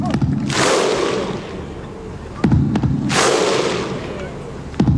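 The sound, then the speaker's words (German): Iceland football fans chanting as a huge crowd at the Euro 2016 tournament in France: loud, sharp unison claps and shouts come at slow, evenly spaced intervals, each followed by a broad roaring crowd wash. “Das sind die Isländer. Und zwar bei der Fußball-Europameisterschaft 2016 in Frankreich.”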